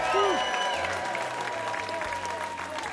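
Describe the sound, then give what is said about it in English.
Audience applause at a live music show on a stage studio in a Pensacola museum: a dense, steady wash of clapping with a few whistles and voices mixed in. “And what a fantastic audience we have tonight. Give yourselves a big hand.”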